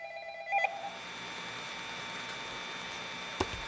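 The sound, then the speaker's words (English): Incoming telephone call tone: a short pulsed electronic beep at the start, then a steady low hum with a faint click near the end. “We have a call coming in. Let's see what we got here.”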